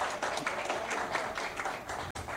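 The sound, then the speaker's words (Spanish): Audience applause at a formal ceremony: steady, dense clapping, fairly faint, with a brief dropout near the end. “Licenciada Vicenta González, un aplauso para ella.”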